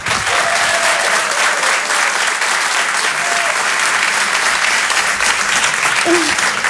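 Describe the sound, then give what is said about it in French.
Loud, steady applause from a comedy club audience cheering a comedian off stage, a thick, even roar of clapping that continues for several seconds without letting up. “pouvez l'applaudir très très fort, Flora Amara sur Rire et Chanson.”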